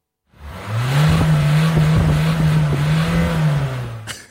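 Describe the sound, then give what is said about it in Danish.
A Citroën Berlingo car engine drones steadily at a low pitch for a few seconds, rising slightly early on and easing off at the end. “Det er en Citroën Berlingo.”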